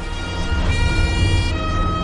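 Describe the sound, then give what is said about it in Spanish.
Police car sirens sound through city streets in Palermo: sustained high, steady tones over a low traffic rumble, loud and continuous. “El 29 de septiembre de 1984 se oyeron las sirenas de los coches de policía resonando por las calles de Palermo.”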